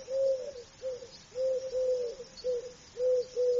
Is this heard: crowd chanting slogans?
no